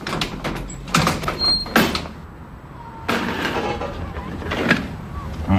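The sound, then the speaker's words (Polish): A lever being pulled open gives a few loud mechanical clunks and rattling knocks in short bursts, separated by a quieter stretch and ending with a final sharp clunk. “To otwórz tę wajchę.”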